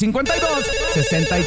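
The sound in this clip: A telephone rings with an incoming call, a bright, steady ringtone sounding throughout while voices talk over it.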